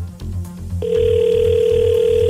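A telephone rings on an outgoing call, heard as a steady, single-pitched electronic tone that holds loudly to the end after a short stretch of low rhythmic background sound.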